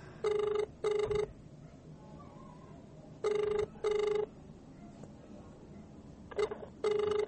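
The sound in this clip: An unanswered phone call's ringback tone: paired electronic buzzes repeating about every three seconds, with three cycles and the last pair partly cut off, over faint background noise.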